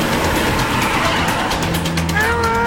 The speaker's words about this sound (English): Luke jump out of the trailer, tumbling onto the grass shoulder as the truck speeds down the road.